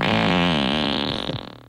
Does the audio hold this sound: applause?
no

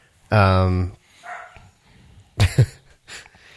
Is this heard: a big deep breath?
no

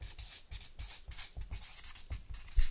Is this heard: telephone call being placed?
no

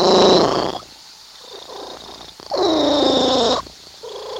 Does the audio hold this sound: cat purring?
yes

